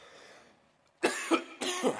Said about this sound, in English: I guess you need to pray for my cough right now.